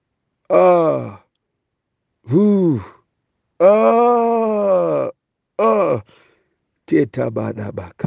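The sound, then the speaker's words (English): Drawn-out human groans made in prayer, a series of loud, voiced moans with arching pitch, each separated by a short pause, with no words spoken. “you can join me just for a moment, just to make a groan in the spirit”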